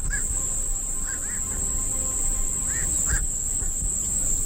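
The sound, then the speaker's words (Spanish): Birds call during the totality of a solar eclipse at the Riet Vell ornithological reserve. A few short duck-like quacks and chirps sound over a steady, high insect buzz and a low background rumble. “las aves es el que está realizando SEO BirdLife en la Reserva Ornitológica de Riedbel. Es este el sonido que ha captado la grabadora de Marc Viñas, uno de los técnicos en el momento de la totalidad.”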